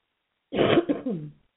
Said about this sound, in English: Excuse me, I still have this cough.